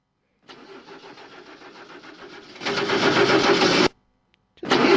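A car engine starting after a drop of petrol is put in the distributor. The starter churns rhythmically for about two seconds, then the engine catches and runs louder, cuts out briefly and fires up again.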